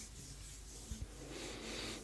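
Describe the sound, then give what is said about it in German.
Two hands slowly rub together, making a soft, steady friction hiss. The sound is faint and even, with two small taps near the middle, and it grows slightly louder toward the end. “Und dann nehmen wir unsere Hände und reiben sie langsam aneinander.”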